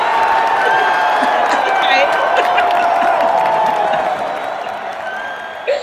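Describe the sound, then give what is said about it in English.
Audience cheering mixed with clapping, a steady dense roar that softens in the later seconds before a brief sharp burst at the very end. “I love these delayed cheers.”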